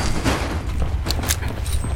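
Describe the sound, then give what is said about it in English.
Rockets from a launcher exploding against a box in a video game, a few sharp booming blasts bursting over a constant low rumble. “Somehow all of those rockets hit the box in front of me. Did not actually hit me.”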